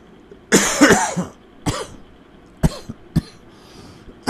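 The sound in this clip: Coughing from a smoker after a smoke break: one harsh, rough fit of several coughs, then a few shorter, sharper single coughs spaced apart, with no talk.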